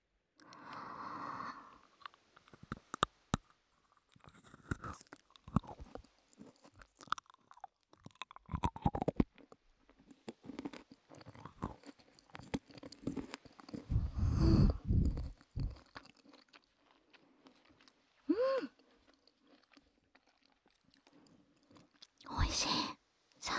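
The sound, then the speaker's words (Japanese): Peanuts are chewed in many sharp, crunchy bites, some shells hollow inside. The crackling comes in irregular bursts separated by quiet gaps, generally soft, with a louder cluster of crunching midway. “じゃあちゃんと綺麗な方のピーナッツを食べていきます。”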